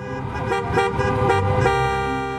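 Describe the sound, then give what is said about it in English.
Car horns honking in a protest traffic jam in Michigan: loud, sustained, overlapping horn tones blaring continuously, with a few sharper toots on top. “People have expressed anger at the government, first by creating a giant traffic jam,”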